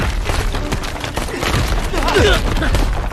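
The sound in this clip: A gunfire volley in a battle scene: a dense, continuous rattle of many shots blurs into a rough, loud wash, and a shouting voice briefly cuts through it.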